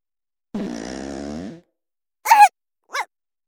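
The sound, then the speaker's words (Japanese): A long, low, buzzing fart lasting about a second sounds alone, followed after a pause by two short, higher-pitched bursts. “またおならが。このままうんちも出ちゃいます。”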